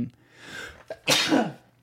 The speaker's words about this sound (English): God bless you. But we're going to all be waking up at 2 a.m. to pray together. God bless you again.